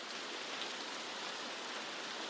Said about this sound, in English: the rains came. The downpour was relentless.